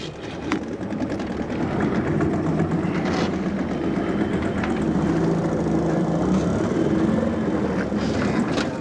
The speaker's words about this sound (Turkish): Burada bir iki kanca daha var ve hala motoru çalıştırıp kayalıklardan uzaklaşmam gerekiyor.